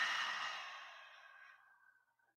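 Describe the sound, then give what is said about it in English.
A slow, deep breath let out through the mouth during a guided breathing exercise, a soft airy rush that starts fullest and gradually thins and fades away. “So breathe in through the nose and out through the mouth.”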